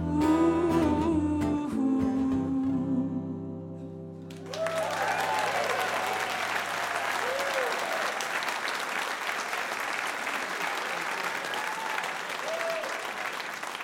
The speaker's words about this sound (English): Oh, let me hear you, Pensacola. Ooh. One more time. Two more times. Ooh. Nice and loud, last time.